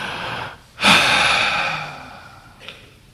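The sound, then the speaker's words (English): A deep breath taken once: a sudden, broad, airy rush that swells quickly, then slowly fades over about a second and a half. It stands alone with no talking, and a faint short puff follows near the end. “So take a breath.”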